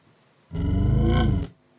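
Synthesized lion roar produced by a vocal tract model that is shared with a cow, one sustained, buzzy harmonic roar about a second long that stands alone against near silence.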